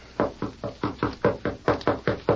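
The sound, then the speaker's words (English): Knocking on a door: a steady, even run of many firm wooden raps at a brisk, regular pace, fairly loud and with no voices. “That is Miss Abby's door, sir. I'll knock.”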